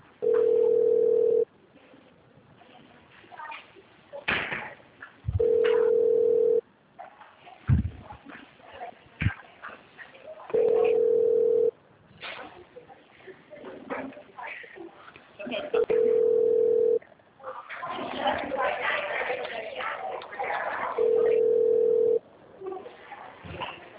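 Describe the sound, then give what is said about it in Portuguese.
Telephone ringback tone while a call to Agibank is transferred to an attendant: five long, steady mid-pitched tones at even intervals, with softer muffled sound filling the gaps between them. “Aguarde um instante enquanto sua ligação está sendo transferida para um de nossos atendentes.”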